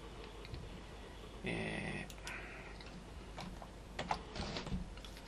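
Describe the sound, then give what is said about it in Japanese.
Fingers typing a search query on a computer keyboard: scattered, quiet key clicks in short runs with pauses between them, no one speaking. “ちょっと待ってください。こういうのは Google で 検索するといいんですけどね、”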